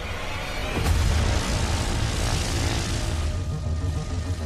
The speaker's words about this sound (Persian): با پرش از یک هواپیما و از ارتفاع 4000 متری سطح زمین.